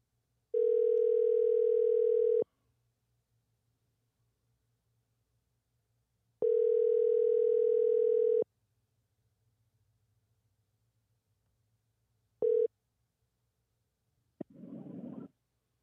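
A telephone ringing tone is heard while a call is placed: two steady two-second tones separated by long silences. A third tone is cut short, followed by a brief burst of noise. There is no talk.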